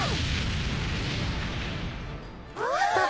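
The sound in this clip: A bomb exploding at a café: a dense, roaring blast of noise that holds for about two and a half seconds, then gives way to a brief burst of high, squealing tones.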